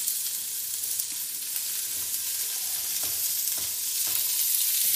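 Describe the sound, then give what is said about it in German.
Food sizzles in oil in a small pot: a bright, continuous frying hiss with a few faint stirring clicks and no talk. “in unser Töpfchen rein und braten das mal so ein bisschen an.”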